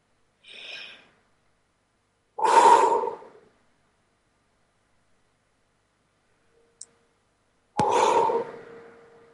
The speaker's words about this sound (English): Let's calm down a minute and just take a couple of deep breaths.